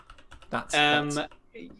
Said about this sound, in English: Can I do that? Can I just type in something into Google and then get it to speak it back to me?